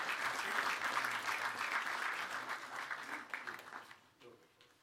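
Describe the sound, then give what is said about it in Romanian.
A church audience applauds, a dense, steady clatter of many hands that holds for several seconds and then thins out and fades near the end. “dacă sunteți de acord, să-i aplaudăm și Dumnezeu să-i binecuvintească.”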